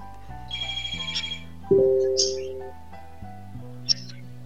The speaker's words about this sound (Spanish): ¿Hola? ¿Tenemos una llamada?